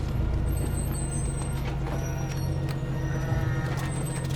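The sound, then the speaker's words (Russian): A vehicle engine runs in a steady, low rumbling idle, holding an even level throughout with no voices. “Мотор глушим, из машины выходим.”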